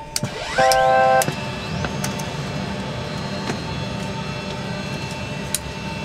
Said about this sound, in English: I'll crank up the APU.